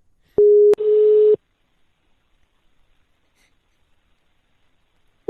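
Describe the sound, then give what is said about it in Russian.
Telephone line tone while placing a call: a steady mid-pitched tone of about a second, broken midway by a sharp click, then near silence. “сейчас я еще позвоню Данте этому”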